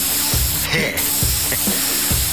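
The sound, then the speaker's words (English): An aerosol can sprays with a continuous bright, hissing jet, swelling into a brief louder blast partway through. “Look, here's an aerosol can. Watch this.”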